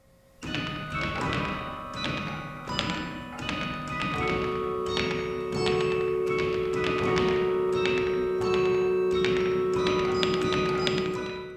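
Someone plays the practice carillon at Beaumont Tower on the MSU campus. Many struck notes come as quick taps and thumps, each with a ringing, bell-like tone, in a fairly even rhythm with some held pitches carrying under the later strikes.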